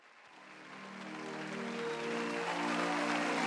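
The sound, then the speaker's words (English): A live studio audience applauds with a dense, crackling wash of clapping that swells gradually louder and stays full to the end. “This episode of the Transformers Nitpickers podcast show was filmed in front of a live studio audience.”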